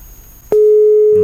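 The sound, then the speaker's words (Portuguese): A telephone line tone on a call that is not connecting instead of ringing. It cuts in abruptly after faint background noise and then holds one steady, loud pitch to the end. “O telefone do Léo não tá chamando, tá só ligando.”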